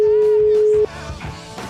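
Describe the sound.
An unanswered phone call reaching voicemail: a single steady electronic tone holds for nearly a second, then cuts off as talking follows.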